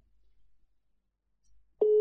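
Ringing tone of an outgoing phone call: after near silence with faint low rumbles, one steady, loud electronic tone starts abruptly at the very end and holds without a break.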